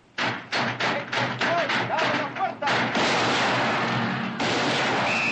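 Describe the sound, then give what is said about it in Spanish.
Gunshots in a saloon during a 1970s Western shootout: a rapid, irregular volley of loud, sharp cracks, followed by a dense, continuous burst of noise. “cuidado, ¡Han empezado a disparar!”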